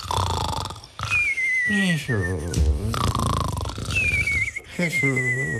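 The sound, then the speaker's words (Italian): Deep snoring of sleeping woodland creatures after drinking, a comic cycle of raspy, rumbling snorts alternating with high whistling exhales that slide downward in pitch, repeated loudly and alone. “finché si addormentano russando profondamente”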